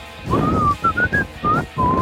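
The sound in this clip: Whistling by a person in an open-plan office with about twenty people: a short, clear melodic phrase of several sustained notes with brief gaps, its pitch wavering gently. No one talks.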